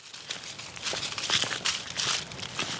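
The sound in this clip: Footsteps of a person and a black lab hiking into the deeply shaded Brooks Hummel Forest Preserve in Fayetteville: many steady, crackly, crunching steps on the ground, heard alone without talk.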